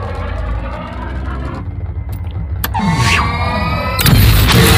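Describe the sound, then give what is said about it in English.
A spaceship's sublight thrusters fire as it speeds away: a loud, roaring engine-like rumble with whooshing tones that builds to a sharp, heavier blast near the end. “He hit that nitrous. How did it jump? It didn't power up his hyperdrives. Didn't jump, kid. Those were his sublight thrusters.”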